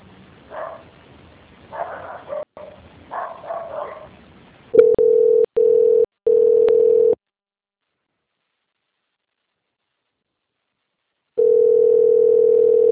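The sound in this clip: A steady telephone line tone plays while a call to a bank is transferred to quality control, first in three short bursts with brief gaps, then a long silence, then the same unbroken tone again. Muffled sounds come before the tone.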